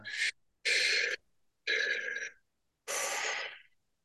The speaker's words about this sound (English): Breathe deeply. So breathe in.